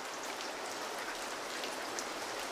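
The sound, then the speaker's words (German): Steady rain falls in a continuous, even hiss of countless small drops. The sound is fairly faint and unbroken, with no voices. “Es regnet.”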